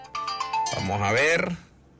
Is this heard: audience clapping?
no